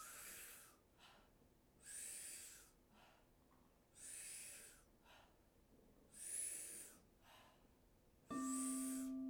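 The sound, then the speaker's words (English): Powerful breaths during a breathwork exercise: forceful inhales alternating with soft exhales through the mouth, repeating in a steady rhythm of a few cycles. The breathing is moderately quiet, with no talking. “40 to 50 powerful breaths. Inhale powerfully and a soft exhale through the mouth like this.”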